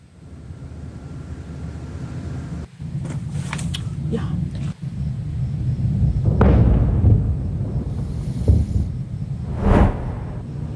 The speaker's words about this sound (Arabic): ووثقت مقاطع فيديو لحظات الغارة وتصاعد كتلة من النيران والدخان من موقع الاستهداف.